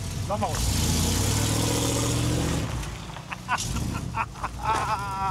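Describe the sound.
A heavy vehicle carrying a cabin of about two tonnes drives off with a loud, low engine drone. The drone dominates the first half, then drops back under people talking.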